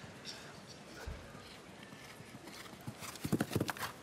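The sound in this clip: Hoofbeats of a horse during a competition riding round: faint rhythmic thuds at first, then a quick run of several louder hoof strikes near the end, with a voice talking underneath.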